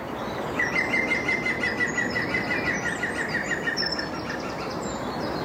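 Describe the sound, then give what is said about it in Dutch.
A green woodpecker gives its laughing call near a house, about twenty metres away. A rapid run of evenly spaced, sharp notes holds a fairly steady pitch for a few seconds over a constant background hiss. “Henny Radstaak hoort vanuit huis dagelijks de groene specht lachen. Een meter of 20 van zijn huis. Hij liep naar buiten en nam hem op.”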